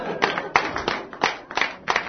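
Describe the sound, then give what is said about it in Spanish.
Scattered hand claps from a small group, several sharp, fairly loud bursts at irregular intervals, with no talk. “¡Un aplauso!”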